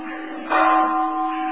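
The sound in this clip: A bell rings out. A single loud strike swells over an ongoing tonal hum, then sustains as a steady, even ring.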